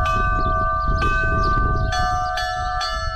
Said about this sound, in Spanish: Estos sonidos de campanas nuevos, como decías, pueden venir para quedarse.